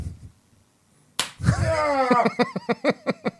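A hard hand slap on the back of a man's neck from a hand wearing a ring: one sharp smack, then a drawn-out voiced cry and a quick run of short vocal bursts.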